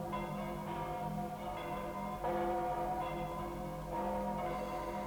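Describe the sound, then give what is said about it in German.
Church bells in London ring in the new year, overlapping tolls blending into a steady, fairly faint wash of tone and noise, with fresh strikes standing out now and then. “Und jetzt läuten die Glocken das neue Jahr ein.”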